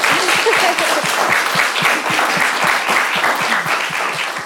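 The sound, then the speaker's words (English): An audience applauds to welcome a guest speaker to a gathering. Dense, even clapping runs loud and unbroken throughout, with no voices over it. “So can we give a welcome to Estefania for making it?”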